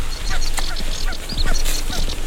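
Birdsong fills a wetland at the Westerlander Koog on Wieringen, where a sedge warbler sings amid a busy mix of short chirps, whistles and rasping calls that come in quick, uneven bursts.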